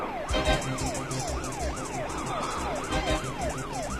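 A police car siren wails behind a moving car, a loud, continuous up-and-down tone cycling many times over the low rumble of road traffic.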